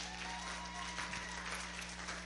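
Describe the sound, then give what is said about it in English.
An audience applauds a volunteer called up on stage at a live demonstration, giving a steady, even wash of clapping that holds throughout. “Can we give Brian a round of applause?”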